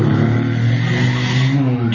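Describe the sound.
A voice imitates a toy car engine, the kind of homemade clay or tin toy car a child pulls along, with a continuous buzzing, vibrating drone that holds steady in loudness for about two seconds.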